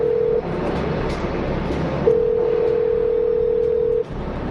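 A steady, low telephone dial tone from a pay phone hums over constant background noise, dropping out after a moment, then resuming and holding before cutting off near the end.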